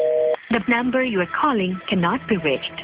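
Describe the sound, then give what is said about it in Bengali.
A call attempt to a switched-off phone, answered by a recorded voice heard through a narrow, tinny telephone line. The automated message runs almost continuously. “এইমাত্র কথা বললো আর এখন phone বন্ধ?”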